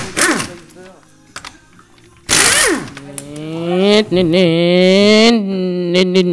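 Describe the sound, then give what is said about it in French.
An impact wrench loosening a car wheel gives a sudden loud mechanical burst, followed by a sustained whining run with strong harmonics that wavers in pitch, then a few shorter bursts at the end. “Voilà une clé à choc, vis, ou qui dévisse. C'est trop dur.”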